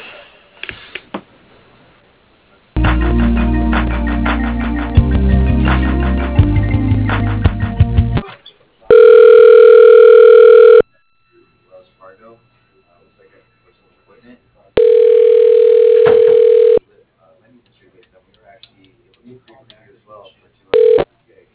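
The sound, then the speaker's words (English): Telephone line tones while a call is transferred to voicemail: a dense burst of line sound, then two long steady beeps of about two seconds each, separated by quiet, and a short final blip. “Would you mind transferring to his voicemail and I'll leave him a message?”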